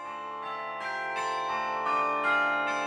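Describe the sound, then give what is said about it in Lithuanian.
Carillon bells ring out over a city in Gdańsk, Poland. Many bright, overlapping strikes sound in steady succession, and their sustained tones build slightly in loudness as the peal continues. “Miestą apkabinantis varpų gaudesys ir tarp dūžių įsiterpianti kūnų jaučiama tyla.”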